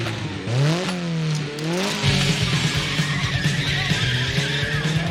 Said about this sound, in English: A robber takes off and makes his getaway in a sweet black Ferrari.